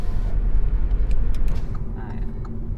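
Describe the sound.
A car engine rumbles as the vehicle turns left onto a forest path. The low, steady drone continues throughout, with a few faint clicks and rattles over it.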